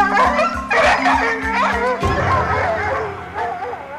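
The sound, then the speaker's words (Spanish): Dogs bark in the countryside in a quick, rhythmic run of low barks that fills the first half, then gives way to a busier, fainter mix of sounds. No one talks. “Los perros que persiguen los pasos de las flores y lirios del campo comenzaron a ladrar sin explicación aparente.”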